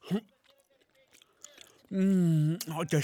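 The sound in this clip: Someone chews a bite of a skewer with short, wet smacking and crunching sounds. A drawn-out, pleased hum and brief talk follow.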